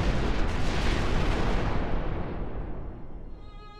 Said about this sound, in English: Jim jumped back across the bunker and pulled the cord that detonated the bomb in the PVC tube by the gate.